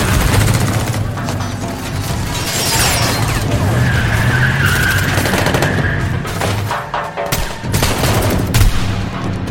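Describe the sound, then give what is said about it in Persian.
Car engine noise with screeching tyres, loud and continuous for nearly ten seconds. Harsh, sharp crackling bursts run through the roar, with no voices. “دنده عقب میگیره. گاز میده و میرم.”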